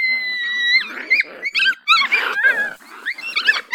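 Dogs fighting, opening with a high drawn-out whine and then breaking into many harsh snarls, growls and sharp yelps in uneven bursts, loud and with no voices.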